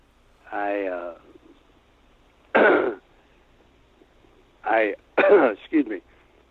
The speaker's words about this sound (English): I'm going to have to cough here.